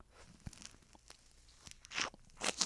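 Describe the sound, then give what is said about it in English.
Biting into and chewing a raw lemon, with faint wet crunching and a few sharper, louder bites near the end, alone without talk. “Did you just fucking eat a lemon?”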